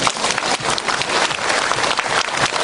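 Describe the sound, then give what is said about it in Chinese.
Audience applause during a talk: many hands clapping in an uneven, bristling patter, with the loudness rising and dipping throughout, and no talk over it. “鼓掌”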